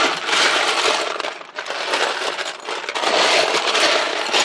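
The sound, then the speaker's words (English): Plastic Lego bricks are rummaged through in a pile, making a dense, continuous clattering rattle of small pieces knocking together. The sound briefly thins midway before resuming at full loudness. “That was the sound of me searching for Legos.”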